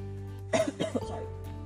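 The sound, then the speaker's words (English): A person coughs a few times after choking, with short rough bursts close together. The coughing is moderately loud over a low steady hum. “I'm sorry. I'm fine. Seriously, I choke on my own throat.”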